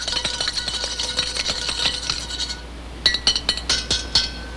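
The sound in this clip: Eggs stirred rapidly in a bowl, with a steady stream of quick clinks and scrapes of a utensil against the dish, followed by a few sharper, louder ticks near the end.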